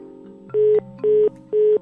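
A phone-call disconnection tone as a participant drops off the call: three identical, mid-pitched beeps, evenly spaced and each about a quarter second long, over a faint steady hum.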